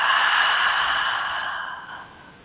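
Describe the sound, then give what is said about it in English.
A deep breath in and out during a guided breathing exercise, heard as one long, airy, steady rush of breath that gradually fades over about two seconds, alone with no talk. “taking a deep breath in and out”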